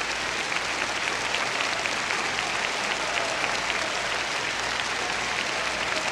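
Concert audience applause in Orchestra Hall, Chicago, as the Chicago Symphony and the whole house stand in tribute to composer Andrzej Panufnik, a thick, sustained roar of clapping that stays level throughout.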